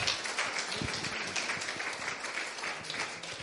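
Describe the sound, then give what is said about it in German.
Congregation applause during a church service: continuous, fairly faint clapping from many hands, an even patter with no clear break across its few seconds. “Somebody give Jesus a hand. Gib doch dem Herr einen Applaus geben.”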